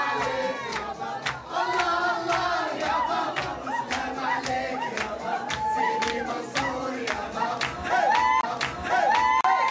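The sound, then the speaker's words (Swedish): A crowd at a Persian-Arab party cheers and shouts with loud, sustained calls, and steady rhythmic percussive hits run through the whole stretch. “Det var arabisk fest. Persisk arabisk fest. Jag tänker vi kan ju lägga in ett litet ljudklipp från det här. Så här lät det för 5 timmar sedan.”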